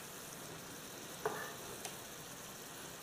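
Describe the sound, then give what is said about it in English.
Beef seasoned with Worcestershire sauce sears in a hot pan with a faint, steady hiss, broken by a couple of light clicks. “I just wanna get a little sear on this beef, which is starting to happen as we speak. You can see it.”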